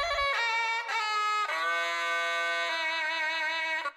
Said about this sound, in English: Similarly, the binai, the oboe-like instrument played at Thai boxing matches, plays notes at intervals that couldn't be mimicked on the piano. In fact, if you take this binai trill,